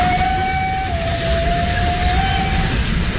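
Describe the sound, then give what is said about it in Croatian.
A train whistle sounds a sustained, steady single tone that dips slightly in pitch midway, held for nearly the whole clip over a continuous low rumbling noise, with no talking. “Ne, ovo nije moj mladenački zvižduk. To je zvižduk vlak.”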